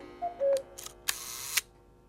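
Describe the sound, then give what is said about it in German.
A camera snaps a quick photo, with a couple of short electronic beeps followed by several crisp mechanical shutter clicks, faint and alone. “Schnell ein Foto.”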